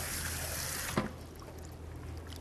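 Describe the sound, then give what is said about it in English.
Running tap water during a final rinse: a steady, broad hiss of flowing water with a brief knock partway through, after which the flow continues a little softer. “And I'm gonna give it one last rinse.”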